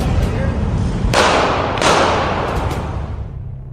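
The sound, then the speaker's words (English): Real gunshots fired at police officers: a few sharp cracking bursts, two standing out clearly, over a dense, noisy background with voices. “By the way, the last sound effect you heard was real shots being fired at police officers.”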